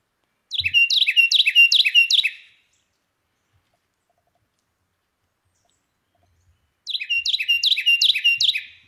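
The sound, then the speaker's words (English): A Carolina wren sings two loud bouts of rapid, repeated bright phrases, each lasting about two seconds, separated by a long stretch of silence. “That's the very loud broadcast of the Carolina wren.”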